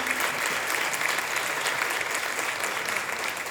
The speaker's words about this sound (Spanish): Le quiero pedir un aplauso para Cordelia Andrada